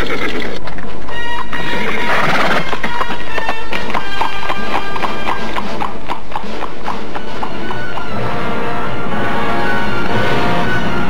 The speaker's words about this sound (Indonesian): Dan kemudian melarikan kuda-kuda mereka ke arah mana kepergian gadis itu.